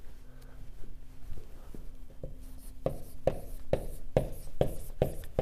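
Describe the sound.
Drawing a lamb with seven horns: faint scratching strokes at first, then many crisp, evenly spaced taps and strokes that grow louder toward the end, with no talk.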